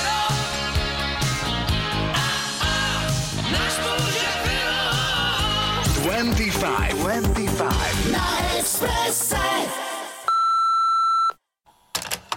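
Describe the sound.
A single answering-machine beep, a loud steady pure tone lasting about a second, comes right after music ends and is followed by brief silence and a few short clicks.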